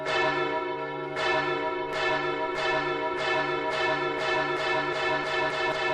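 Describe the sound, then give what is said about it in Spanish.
Church bells in Spain ring out in a loud, resonant series of strikes with long sustained tones. The strikes come closer together as the peal goes on. “un recorrido con el sonido de las campanas. Este sonido a fiesta, como hoy es domingo, o este otro que es anunciando cada noche el cierre de murallas.”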